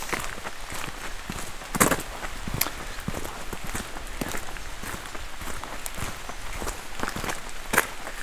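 Footsteps of people walking outdoors, a steady run of soft crunching steps over a constant hiss of background noise, with a few slightly louder steps standing out.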